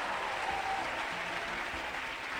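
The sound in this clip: A church audience applauds in a dense, continuous wash of clapping that stays level and steady throughout, with no separate voices standing out.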